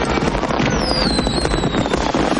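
Fireworks exploding during a night celebration in a Western film scene, a dense continuous crackle and rumble of bursts with a thin whistle gliding downward in pitch across the middle.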